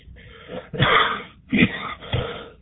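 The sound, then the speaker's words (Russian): A smoker's raspy cough, three rough bursts with a throat-clearing quality, the first the longest and the next two shorter, moderately loud and with no talk over them. “Прошу прощения за превышение битности моего кашля. Курю.”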